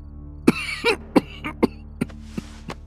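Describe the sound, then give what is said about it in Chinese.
A man coughs low in a short fit of about eight rough, throaty bursts, some with a rasp of throat clearing, spaced unevenly and heard alone. “一阵低低的咳嗽声突然响起，他猛地起身掩住嘴”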